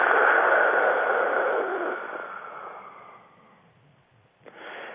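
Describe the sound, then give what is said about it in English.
A forceful, hissing dragon-breath exhale during a group breathing exercise. It is strongest at the start and tapers off steadily over about three and a half seconds, followed by a short gap and a soft breathy rustle. “take another deep breath, and on the out-breath, make like a dragon breath”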